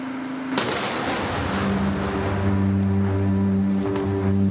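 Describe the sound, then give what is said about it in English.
A tank shell strikes a hotel office: one sharp blast early on, followed by continuous rough rumbling with steady droning tones running underneath. “Suddenly we saw an orange glow, and this is basically the shell, tank shell that hit our office.”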